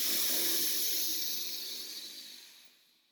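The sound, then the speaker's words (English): A long, deep inhalation during a guided meditation session, heard as a soft, airy hiss of breath. It starts full and steady, then gradually thins and fades away to near silence. “Breathe into that right now. Breathe deep.”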